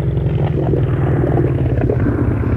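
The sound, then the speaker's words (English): Low, steady rumble of a boat's engine being throttled down while rounding the tip of an island, a continuous droning motor with no voices over it. “Okay, I'll throttle her down.”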